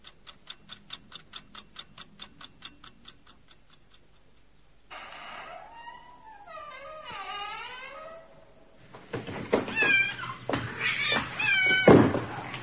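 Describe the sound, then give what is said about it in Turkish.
A cat meows several times in drawn-out, wavering cries, then yowls louder and harsher, all after a stretch of steady clock ticking. “Ay şu kedi. Çekil şuradan.”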